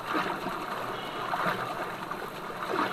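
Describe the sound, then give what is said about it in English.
Water churns and sloshes as a video game character is knocked into the water and swims, a continuous watery wash with small splashes throughout. “Shield activated. Knock Link into the water.”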